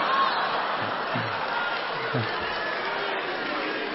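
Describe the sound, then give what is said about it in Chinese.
Audience applause at a Chinese crosstalk comedy show: a dense, steady wash of many hands clapping that holds at an even level for the whole clip. “我看谁敢再鼓掌。 我看谁敢停。”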